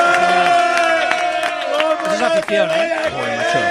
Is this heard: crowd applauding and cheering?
yes

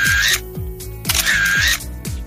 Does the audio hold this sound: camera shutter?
yes

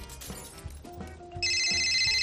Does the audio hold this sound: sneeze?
no

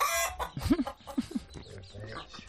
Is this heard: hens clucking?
yes

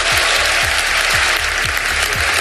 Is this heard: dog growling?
no

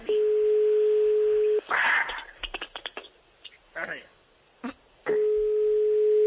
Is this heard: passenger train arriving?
no

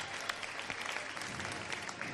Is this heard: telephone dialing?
no

